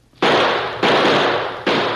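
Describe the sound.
Gunshots, three loud, harsh bursts fired in quick succession with short gaps between them, each cracking out with a rough, noisy tail.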